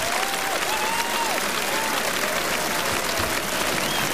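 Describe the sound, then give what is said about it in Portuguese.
Applause for the radio team rises from a crowd at a live stage event: steady, dense clapping throughout, with a few whistles sliding above it. “Aqui fica este aplauso para toda esta equipa da rádio, exatamente.”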